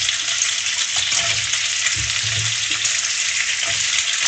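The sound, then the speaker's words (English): Carrots sizzling as they drop into a pan of hot oil, a loud, dense, steady frying hiss that carries on without pause and without talk. “Okay, here we go. Carrots going in.”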